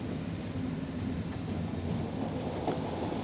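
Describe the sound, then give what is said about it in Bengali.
A train halts at a station because of trouble on the line ahead: a steady low rumble of rail cars with a faint high wheel squeal, holding an even level throughout with no voices. “সামনের লাইনে গণ্ডগোল থাকায় ট্রেনটা কিছুক্ষণের জন্য এই স্টেশনে দাঁড়িয়ে গেল।”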